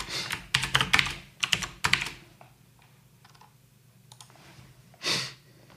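Typing comments on a computer keyboard: dense bursts of rapid key clicks fill the first two seconds, then the taps thin out to a few scattered, quieter keystrokes, with one soft swell near the end and no talking.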